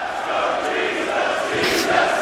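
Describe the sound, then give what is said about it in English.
A wrestling crowd at the UK Championship Tournament in Blackpool chants for Saxon Huxley: a roaring, fairly loud mass of voices that swells near the end. “Just take a listen to this moment from the UK Championship Tournament when the crowd started chanting for Saxon Huxley, who bore a striking resemblance to a certain biblical figure.”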